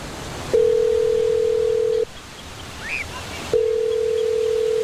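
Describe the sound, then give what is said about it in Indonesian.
Ringback tone on a telephone call: two long, steady, mid-pitched tones, each lasting over a second, separated by a pause filled with soft hiss. No voices are heard. “Coba telepon si Eki, Clar. Buat apa? Buruan, telepon aja.”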